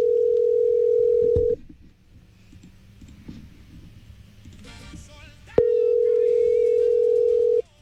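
Telephone ringback on a call that goes unanswered: two long, steady mid-pitched electronic tones with a stretch of faint rustling and soft clicks between them.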